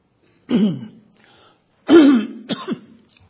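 Throat clearing, loud and alone: two rough, voiced rasps separated by a pause, then a shorter double catch at the end.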